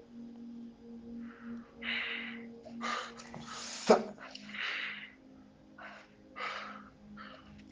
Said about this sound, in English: Just breathe in and out five times heavily.